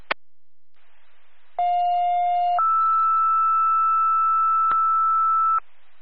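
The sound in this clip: Second set of two-tone dispatch alert tones for East Meredith first responders: a lower steady tone lasting about one second, then a higher sustained tone held for about three seconds, bracketed by brief clicks, with no voices.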